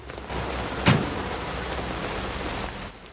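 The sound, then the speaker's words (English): Heavy rain buckets down in a town under a grey sky, a steady, dense hiss of water pouring onto surfaces that holds an even level throughout before easing slightly at the end. “arrives in town as rain buckets down from a grey sky.”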